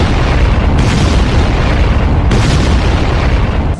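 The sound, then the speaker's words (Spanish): An explosion from a malfunctioning robot fills the whole clip: a loud, dense roar that rumbles steadily for nearly four seconds with no clear break or fade, and no voices over it. “¡Va a explotar!”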